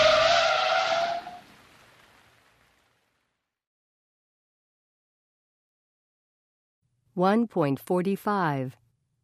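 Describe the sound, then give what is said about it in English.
Tires screeching as a car brakes hard at speed, a loud squeal that fades out over about two seconds. After a long silence, a short burst of voice follows. “Quickly, she put her foot on the brake.”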